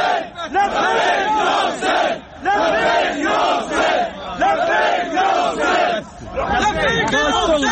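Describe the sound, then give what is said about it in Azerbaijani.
A crowd outside a courthouse chants religious slogans in loud, rhythmic unison. Repeated shouted phrases rise and fall in waves with brief dips between them. “Məhkəmə binası önünə toplaşanlar da dini şüarlarla təqsirləndirilənləri dəstəkləyiblər.”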